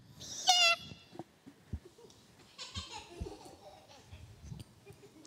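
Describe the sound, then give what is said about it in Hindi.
A child imitates a cat's meow with one short, shrill, high-pitched cry near the start, followed by faint rustles and soft murmurs. “बोले म्याऊ। ये तो बिल्ली की।”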